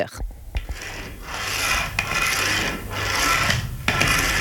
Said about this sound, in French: Mais c'est le bruit de ma canne blanche, en fait, de la canne avec laquelle je me déplace, dont j'ai besoin pour être en sécurité.